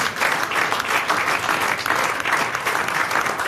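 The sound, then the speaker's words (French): A studio audience at a game show gives a standing ovation, dense and loud clapping that continues evenly throughout with no pauses. “Et c'est une standing ovation. Oui, standing ovation.”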